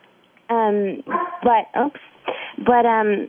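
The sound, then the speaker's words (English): A dog barking and whimpering, a run of loud, tonal whines and short yelping barks in quick succession, with drawn-out whimpers at the start and end. “And that's my dog, by the way.”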